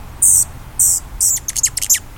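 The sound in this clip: A male rufous hummingbird calls with three sharp, very high buzzy chips, then a quicker run of short, thin notes, set against a faint low rumble.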